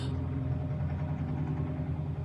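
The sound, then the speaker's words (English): A big truck drives down a hill, its engine a faint, low, continuous rumble with a steady droning hum throughout. “sorry, there's a big truck coming down the hill. I don't know if you can hear that.”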